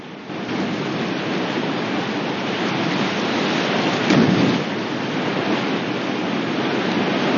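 River rapids as a canoe is paddled into a narrowing channel: a loud, continuous roar of rushing water that swells briefly a little over halfway through, with no voices.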